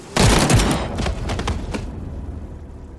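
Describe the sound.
A firing squad fires a close-range volley: one loud, sharp burst of near-simultaneous gunshots, then a few scattered cracks and a long fading rumble.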